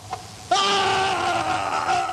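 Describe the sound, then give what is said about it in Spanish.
A long scream in a dramatized horror tale, heard as a prince confronts a masked stranger in a velvet hall. The single high, harmonic cry bursts out sharply and holds loud and steady to the end. “Se oyó un grito.”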